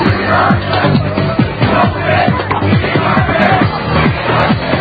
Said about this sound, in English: All hell is breaking loose on 6th Avenue. You know, you need a permit to protest or demonstrate here in New York. But this anarchist group came forward.